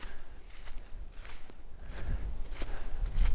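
Footsteps of someone walking alone along a path through a forest at night, a few soft, irregular crunching steps, faint against a quiet background.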